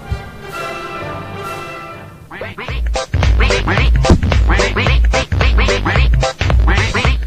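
A duck quacks loudly, a rapid run of many harsh nasal quacks that starts abruptly after a quieter opening and continues to the end.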